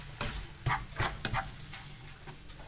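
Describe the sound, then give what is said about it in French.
Bacon lardons frying gently over low heat in a pan, with a soft sizzle under a few sharp scraping stirs spaced irregularly. Faint and without any talk. “lardons se couvrent d'une jolie couleur euh, progressivement, tout en étant assez homogène. Donc d'où l'intérêt de la cuisson à feu douce.”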